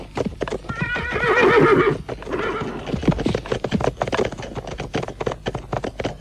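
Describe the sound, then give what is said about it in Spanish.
Horse whinnying with a wavering, high-pitched call as riders mount up for a journey, followed by a steady run of hooves clip-clopping. “Montamos a caballo”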